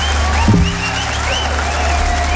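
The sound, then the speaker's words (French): Audience applause forms a dense, even wash that holds at a steady level through the whole clip, with a few brief tonal sounds mixed in and no voices over it. “sous vos applaudissements”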